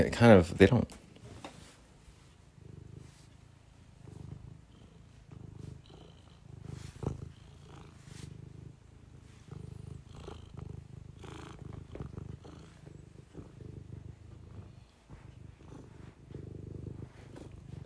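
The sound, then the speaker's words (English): A purring cat, a low, steady rumbling throb running through the whole stretch, opening with a louder rustling burst and dotted with faint scattered clicks and shuffles. “easy cat, don't start attacking me now.”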